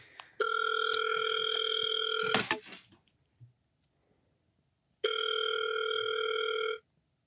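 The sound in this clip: A phone call ringing out: two long, steady ringback tones separated by a gap of silence, with a brief clattering noise just after the first tone.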